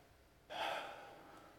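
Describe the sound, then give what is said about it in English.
A single deep breath drawn in, beginning abruptly after a short quiet stretch, swelling loud and airy, then slowly tapering off with no talk. “If you would, take a breath with me.”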